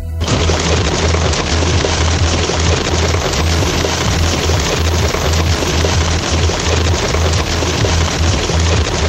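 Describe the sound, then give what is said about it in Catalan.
Rain falls on the roof of a radio transmitter building. It makes a loud, dense, unbroken hiss and patter with a low rumble underneath, steady from start to finish. “Aquest era el soroll de la pluja caient al sostre del nostre centre emissor.”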